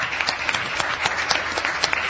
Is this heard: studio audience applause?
yes